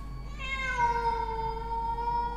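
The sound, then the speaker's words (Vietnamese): A black cat crying out mournfully: one long, drawn-out wailing meow with a rich, slightly wavering tone, held loud and steady for about two seconds over a low hum. “Nghe tiếng là tiếng con mèo kêu lên thê thiết.”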